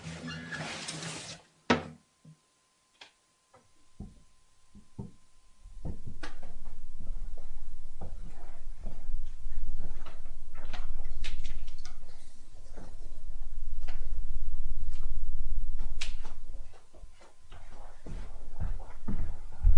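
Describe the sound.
Things being shifted around during a sermon: scattered knocks, taps and clunks of objects being moved, irregular and mostly faint, over a low rumble, with no talk.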